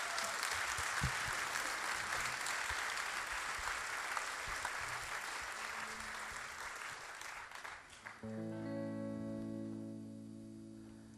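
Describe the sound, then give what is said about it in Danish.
Audience applause for a Danish folk singer rolls on loud and dense for about eight seconds, then drops away as sustained instrumental notes begin. “Vær sød at give ham en stor hånd.”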